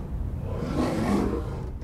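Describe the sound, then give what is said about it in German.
A lion roars in the pre-dawn darkness around 4 a.m. on a vast East African plain, a deep, loud, sustained rumble that fills the whole stretch without pause or voices. “Das ging schon sehr früh heute früh los, um 4 Uhr heute Morgen. Wurden wir geweckt von Löwengebrüll.”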